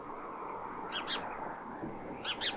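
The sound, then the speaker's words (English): Sparrows chirp in two small clusters of quick, high, faint tweets, one early and one near the end, over a steady low hiss. “Those are your sparrows, aren't they?”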